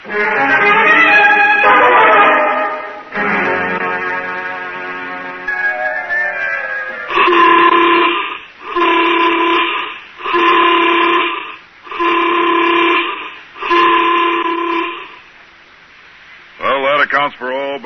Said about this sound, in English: Captain, you'd better sound the emergency recall.